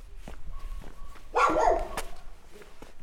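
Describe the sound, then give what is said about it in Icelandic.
A dog barks once, a short, sharp bark heard at night on steep, narrow city steps. It rises abruptly above low, quiet background noise. “Hundskelt hrætti mig”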